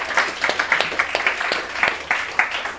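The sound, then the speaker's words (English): A studio audience at a comedy show claps in a steady, even rhythm, a string of regular claps at a moderate pace with no voices over them. “And then, crowd, give yourselves a round of applause for that outstanding Foley work.”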